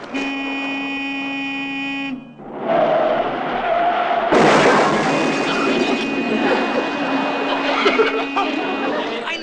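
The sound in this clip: A car skids after its driver steps on the gas instead of the brake: a sustained horn-like tone, then a sudden loud, noisy roar that carries on to the end.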